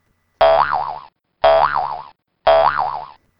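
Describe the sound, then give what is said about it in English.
Three identical cartoon boing effects, evenly spaced and loud, each a twangy springy tone whose pitch wobbles up and down before cutting off. No other sounds. “I have been accused of alienating women by using a boner sound effect.”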